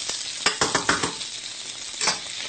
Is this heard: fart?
no